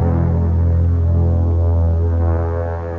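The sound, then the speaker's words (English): Steady electric buzz of a razor as a man shaves off his moustache: a loud, even droning hum with a slight throb, continuous throughout and fading a little at the end. “Are you ready, Your Majesty? Oh, I see you're still shaving.”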